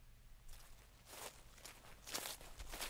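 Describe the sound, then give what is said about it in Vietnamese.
Footsteps of people moving outside an abandoned house in a forest of red leaves. A series of faint, soft, irregular steps crunch over a low background hum, with no talking. “lúc tôi đang ngủ, chợt nghe có tiếng bước chân người lao sao ở bên ngoài.”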